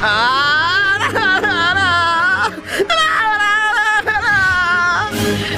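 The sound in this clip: Whimpering and crying, loud, with a high wavering pitch broken into a few uneven sobbing bursts.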